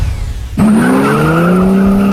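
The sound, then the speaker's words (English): Race car at a raceway: a sudden loud engine roar after a quieter start, holding a sustained whine that slowly rises in pitch, with a tire-squeal edge, as one continuous sound. “Don't miss all the racing action this weekend at Skelton Raceway in Sykeston.”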